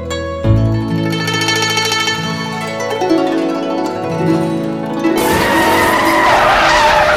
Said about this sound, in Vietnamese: Mọi người cùng nhìn ra cửa sổ, tuy trời rất tối nhưng họ vẫn nhìn thấy một chiếc xe địa hình rất hào hoa, sang trọng đang dừng trước cửa nhà.